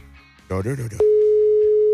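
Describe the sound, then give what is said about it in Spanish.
Steady telephone dial tone heard while a call is being dialed. It is a single unbroken mid-pitched hum that holds for about a second, following a short burst of voice. “Estaba marcando”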